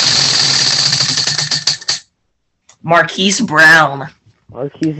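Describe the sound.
A prize wheel spun for a fantasy football pick ratchets through rapid clicks that gradually slow and stop after about two seconds; people then talk.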